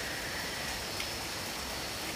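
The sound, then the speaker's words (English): Rain falling as a steady, dense hiss of drops that holds at an even, fairly loud level throughout, with no voices and no breaks. “if you can also tune into this rain”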